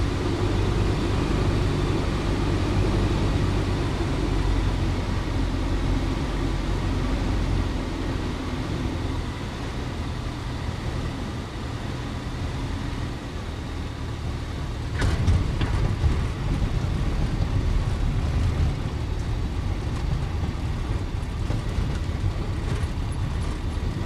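Steady, loud engine drone of a J3 light aircraft flying over the aerodrome at Saumur, mixed with wind rush. It holds at a constant level throughout, with a slight swell midway and no voices.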